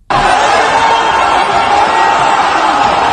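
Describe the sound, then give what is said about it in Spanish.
A dense crowd din rises in the food aid queues run by the Gaza Humanitarian Foundation in Gaza. Many voices blend into a steady, loud wash of noise that holds level from start to finish. “Este es el sonido de las colas de la Gaza Humanitarian Foundation, la agencia financiada por Estados Unidos e Israel, que se ha convertido desde mayo en la principal distribuidora de la poca comida que entra en Gaza.”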